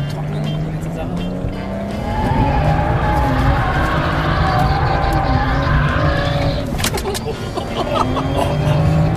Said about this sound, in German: Sind das wir? Nein, das waren wir jetzt nicht. Das war gerade mein Kollege mit dem Mercedes.